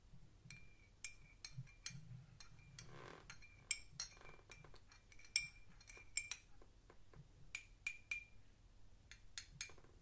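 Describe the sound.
Spoon clinking against a glass while a drink is stirred: many light, quick taps in an irregular run, each a bright, high clink over a low steady hum, with no talk.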